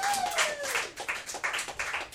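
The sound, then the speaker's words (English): An audience claps as a performer is welcomed on stage at a live comedy show. The clapping is faint and uneven, with many irregular hand-claps bunching and thinning out across the short stretch. “Everyone, the time to clap is now.”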